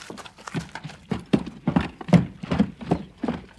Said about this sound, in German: Diese Dinge bemerkte ich, während ich über einen kurzen Dammweg zum Hause hinaufritt.